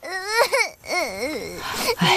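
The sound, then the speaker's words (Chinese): A child cries in high, wavering wails, a few sobbing bursts broken by a short gasp-like pause, loud and with no other sounds around it. “孩子怎么哭了？”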